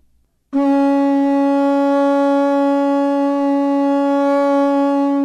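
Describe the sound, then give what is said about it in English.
A conch shell blown into a single loud, low, buzzy horn tone that starts abruptly after a brief silence and holds steady to the end. “I have a conch shell right here, and I know I think people know this sound, kind of a Call of the Wild sound, but it sounds like this.”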